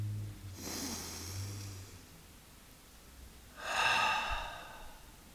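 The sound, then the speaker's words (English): Two slow, deep breaths, a long airy inhale and then an exhale, taken during a guided meditation on forgiveness and love. Both are soft and breathy and separated by a quiet pause, with a low steady hum underneath. “Let's take a deep breath.”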